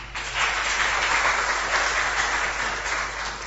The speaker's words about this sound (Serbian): na čemu im od srca zahvaljujemo i molimo da ih pozdravite jednim aplauzom.